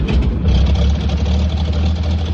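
The engine of a brand-new design of rail vehicle runs on a siding, giving a steady, loud, low rumbling drone with a faint ripple and no change in pitch.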